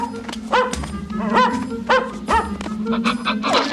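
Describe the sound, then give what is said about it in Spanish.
A dog barking repeatedly, many sharp, tonal yapping barks at a fairly steady rhythm, loud throughout. “¡Max! ¡Max! ¡Cállate, Max! ¿Qué te pasa, bonito?”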